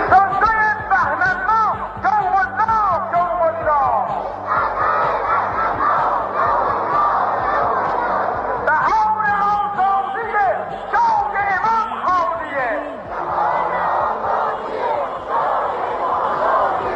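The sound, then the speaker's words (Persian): A large crowd chants and shouts at the 22 Bahman rally march in Iran. Many voices rise and fall together in a rhythmic roar, loud and unbroken from start to finish. “حضور حماسی و وحدت بخش مردم ایران در راه پیمایی باشکوه 22 بهمن معنایی متفاوت داشت.”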